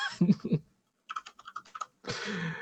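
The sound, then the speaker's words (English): Quick bursts of typing on a computer keyboard: a short run of crisp, separate key clicks, then a denser, continuous clatter of keystrokes, fairly soft overall. “I feel like I type slow and that's going to take me forever.”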